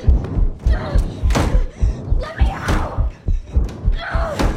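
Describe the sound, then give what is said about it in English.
A door is yanked open amid a flurry of loud, irregular thumps and bangs that come in quick succession. “He reels back and yanks the door open.”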